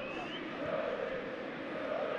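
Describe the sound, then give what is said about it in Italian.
Parma football fans sing in the stadium, a sustained chant from a crowd of many voices holding a steady, moderate level throughout. “Sfila il tempo, tifosi del Parma che continuano a sventolare le loro bandiere e anche a cantare.”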